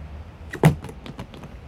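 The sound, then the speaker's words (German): A car door opening on a black Packard as a radio drama effect: one sharp latch click followed by a few fainter mechanical clicks, heard alone without talk. “Er hob den Koffer und ging auf einen schwarzen Packard zu, der an der nächsten Ecke geparkt war. Als er die Tür öffnete, hob sich im Innern des Wagens eine Pistole.”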